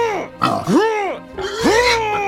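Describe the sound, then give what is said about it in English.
A human voice imitates boars grunting rhythmically in a chant, giving three loud, drawn-out guttural calls that swoop up and down in pitch, evenly spaced. “And all of the boars start grunting rhythmically in a hype-up chant.”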